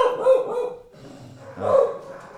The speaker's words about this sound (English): that's the promised bark that I warned you about.